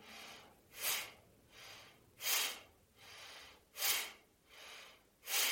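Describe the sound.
Breathing in and out through the nose, soft airy breaths in a slow, even rhythm, with stronger breaths alternating with gentler ones over several quiet cycles.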